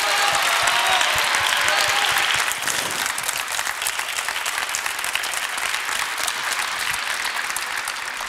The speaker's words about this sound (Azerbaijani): Sizi alqışlayırıq İlqar müəllim. Çox sağ olun. Bu möhtəşəm əsər üçün.